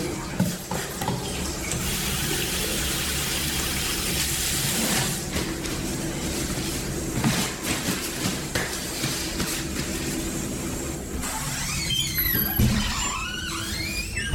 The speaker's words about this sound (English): And wash my hands.